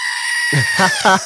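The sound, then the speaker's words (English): Goat bleating, a short, wavering, nasal bleat that breaks into a few quick pulses over about a second, loud and alone without talk. “Bringing the goat back.”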